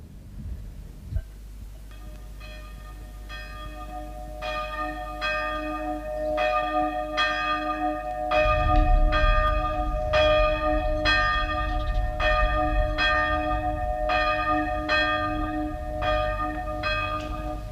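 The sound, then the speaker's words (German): Church bells ring during a funeral. Many strikes ring out in a steady, overlapping peal with bright ringing overtones, and a low rumble joins the sustained ringing halfway through. “Dieser Glocken macht mich krank. Das Begräbnis dauert schon mehr als 2 Stunden.”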